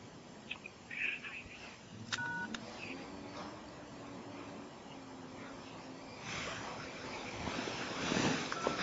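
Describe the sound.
A phone being dialed to call in and hear a message: a few brief keypad tones stand out over a steady low hum and hiss, faint overall.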